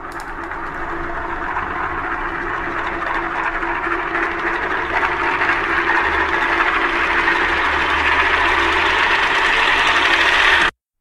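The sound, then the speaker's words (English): A spinning top gives a continuous loud whirring, rattling drone for about ten seconds. The sound brightens and grows slightly louder toward the end, then cuts off abruptly. “The sound you just heard was a recording of a spinning top.”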